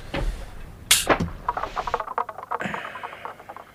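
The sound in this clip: A gunshot fired at a triffid rings out as one sharp, loud crack about a second in, followed by softer scattered sounds and a ringing tail.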